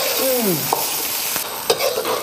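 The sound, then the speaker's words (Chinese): Small shrimp fried slowly in oil that is not very hot and stirred gently in a pan with seasonings. A steady sizzle runs throughout, broken by a few scraping stirring strokes. “麻虾不可以先下锅，因为麻虾的体积很小，时间长了以后它就碎了，要慢慢的搅拌，油温不能高，油温高了以后呢，它容易焦化。这样就慢慢的熬。”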